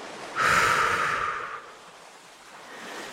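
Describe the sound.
A single deep, airy exhalation during a guided breathing exercise in a mudra meditation session for self-esteem, a steady breathy rush lasting about a second that fades into a soft, quieter breath.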